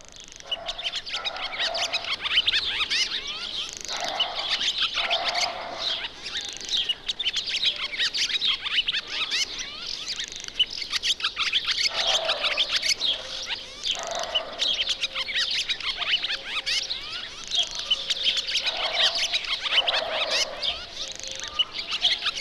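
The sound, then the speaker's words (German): A barn swallow sings a long, busy stream of rapid twittering and high chirps. Lower, rattling phrases recur throughout, and no voices are heard. “Zunächst der Gesang der Rauchschwalbe.”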